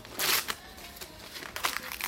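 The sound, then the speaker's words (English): A card is torn up, starting with a loud ripping burst and followed by a few quieter crinkling tears of paper. The whole sequence is fairly faint. “There's no need to tear it up.”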